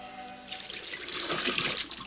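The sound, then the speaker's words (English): Formula bottles emptied into a kitchen sink. A steady splashing rush of liquid starts after a brief quiet moment and runs on to the end. “empties formula bottles into the sink”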